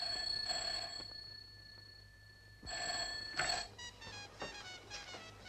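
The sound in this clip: An old telephone bell rings faintly in bursts, goes quiet, then rings again before clicks and a clatter as the receiver is picked up.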